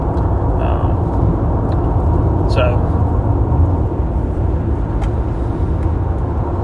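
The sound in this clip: Steady road rumble inside a car on a long drive home, a constant low, broad roar with a few faint, brief higher blips on top.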